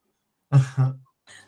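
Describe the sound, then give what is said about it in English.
Throat-clearing sound caught during a paranormal investigation of haunted dolls and items: two quick, rough voiced bursts in close succession, then a fainter, shorter third burst after a brief pause, with no talk over it. “Sounds like Ghost is trying to clear its throat.”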